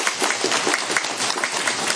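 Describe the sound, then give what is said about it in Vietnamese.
Listeners at a Buddhist teaching session break into applause, a short burst of brisk, dense clapping that holds at an even level. “Cho vỗ tay 8 tháng những người nói những câu đó.”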